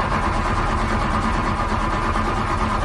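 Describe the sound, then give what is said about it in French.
A car engine cranks but fails to start: a continuous, rough, rapid mechanical churning at steady loudness that never catches into a running idle. “Oh non, l'auto part pas.”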